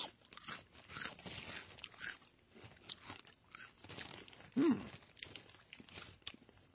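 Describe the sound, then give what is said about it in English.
Crunching and chewing of a crunchy lager- and cheese-flavoured snack, faint and irregular, with many crisp bites and soft mouth noises. “I'm getting a little lager taste right now. With a little cheese. Hold on, I'm taking another taste.”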